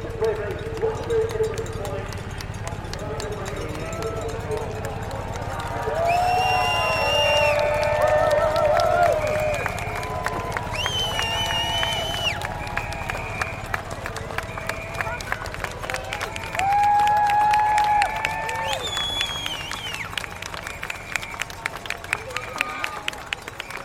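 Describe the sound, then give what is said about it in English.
A crowd cheers riders at a men's World Championship cycling race. Many rapid percussive clacks patter throughout, and shouting voices and talk rise and fall over the noise. “Great crowd who would cheer the riders on the way, get ready to make as much noise as you possibly can. You can't join them in the front of the refrain, but give the riders a big cheer nonetheless.”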